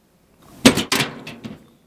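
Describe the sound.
An emergency door leading to a stairwell is opened. A sharp clunk is followed quickly by a second one, then two softer taps as the sound dies away.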